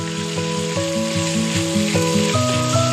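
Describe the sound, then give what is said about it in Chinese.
Minced beef stir-frying in hot rapeseed oil heated in a wok, a steady bright sizzle that runs unbroken and fairly loud, with steady tonal notes shifting in pitch over it. “热锅下菜油，烧至六成熟，再放入剁细的牛肉末，煸炒至酥嫩。”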